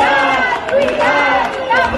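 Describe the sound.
A protest crowd at Plaça de Sant Jaume in Barcelona during an education strike in Catalonia. Many voices overlap in a dense, steady murmur with shouts rising out of it.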